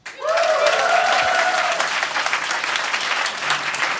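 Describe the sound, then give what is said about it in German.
Audience applause from a crowd at a live recording event in a department store basement, a dense steady wash of clapping that swells in quickly and holds loud and even for the whole stretch, with brief vocal whoops at the start. “Ein Tosenapplaus! Sehr gut! Ein Fest!”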